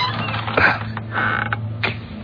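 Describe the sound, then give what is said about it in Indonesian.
A door creaks as it swings open into a dirty, dark room at the far corner of a building near a bathroom. A few drawn-out, grinding creaks come over a low steady hum. “Saat ku buka pintunya,”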